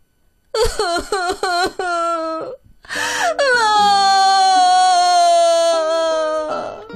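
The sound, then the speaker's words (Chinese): A voice imitates a little dinosaur crying sadly, alone in a big forest: a quick run of short, choked sobs, a brief pause, then a long, loud, drawn-out wail held almost to the end. No one talks. “这会儿啊，他孤零零的一个人坐在大森林里，他想。也许自己不会再有朋友了。想着想着，他就伤心的哭了。”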